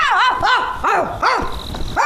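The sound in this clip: A human voice imitates a dog barking, giving five sharp, yelping barks with a bending pitch and short gaps between them.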